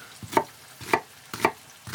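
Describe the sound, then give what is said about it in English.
A knife dicing a halved, peeled onion: four crisp, evenly spaced chops, roughly one every half second, each a sharp clack with a soft lead-in, with no voices present. “Dicing my onion in the proper manner. Cut it in half, peel the outside.”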